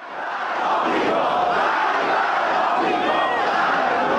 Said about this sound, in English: That's the sound of angry Iranians. Thousands all across the country mourning the death of Soleimani and angry at America.